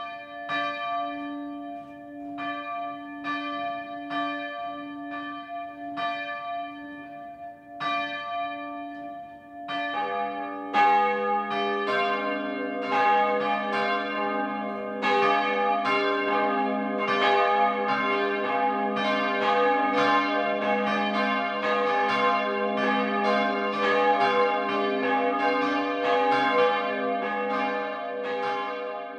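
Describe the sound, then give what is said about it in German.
Noon ringing from the bells of a Catholic parish church in Schirn, Upper Franconia: a single bell first strikes at a slow, even pace, then more bells join after about ten seconds, building into a dense, continuous peal. “Das Mittagsläuten kommt heute von der katholischen Pfarrkirche St. Jakobus im oberfränkischen Schirn.”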